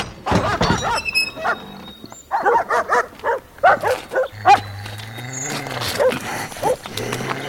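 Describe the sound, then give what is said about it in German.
Dogs bark in a rapid run of loud, irregular bursts, many sharp barks following one another with short gaps, some overlapping as several animals call at once. “Was machen Sie mit meinen Hunden? Sie vergiften sie!”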